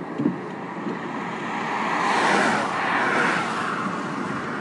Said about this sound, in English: Plain clothes, unmarked Garda car, recording a piece of audio in the car.